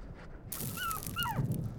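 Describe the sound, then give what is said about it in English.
A wild dog gives two brief, high whining calls, the second sliding downward in pitch, over a low rumbling background. “Wild dog walks right through my siren routine.”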